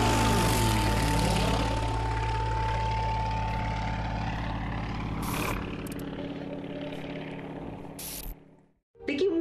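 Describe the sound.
Roaring propeller engine of a racing airplane flying a course between pylons, loud and sustained throughout, its droning pitch sliding lower early on as it passes, then briefly cutting out near the end.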